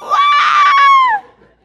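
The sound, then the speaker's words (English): A single voice imitates a line of people screaming in alarm after a shot came through a window. It gives one loud, high, sustained wail of about a second that drops in pitch as it trails off. “And behind me going down the line, everybody screamed,”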